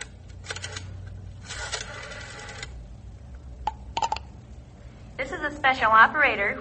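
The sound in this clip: A telephone is dialed: a few separate bursts of rapid, dry clicking with pauses between them, followed at the end by a voice speaking.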